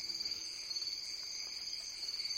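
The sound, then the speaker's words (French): Cicadas chirping at night: a steady, high-pitched insect chorus with a fast, regular pulsing throb that stays at a constant moderate level throughout. “Encore deux minutes, et le chant des cigales monte dans la nuit.”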